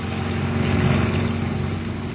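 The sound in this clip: A motor launch's engine runs in a steady, unbroken drone, a continuous low rumble with a faint higher whir and no voices over it.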